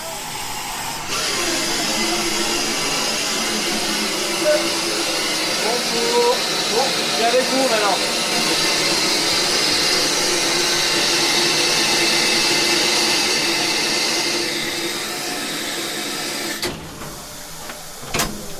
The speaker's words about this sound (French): On va s'arrêter juste avant la jonction des deux voies. Nous allons repartir immédiatement en sens inverse. Locomotive en tête.